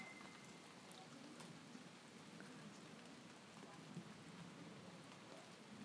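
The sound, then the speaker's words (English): Steady rain falls during a storm, a quiet, continuous hiss of drops with a few faint taps standing out, and no clear breaks through the whole stretch. “Thunder's not stopped, though. Oh, it's coming down. It's going to come down again, I think.”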